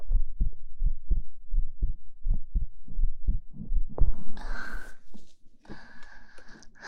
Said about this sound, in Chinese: 听姐姐的心跳，